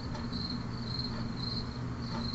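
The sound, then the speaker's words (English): Crickets chirp in a steady, high-pitched pulsing trill that repeats evenly all the way through. The chirping is fairly faint over a low background hum, with no voices. “Or dead silence, which... Insert crickets here.”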